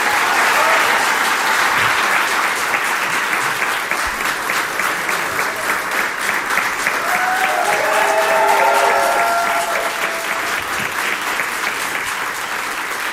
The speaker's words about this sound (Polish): Wielkie brawa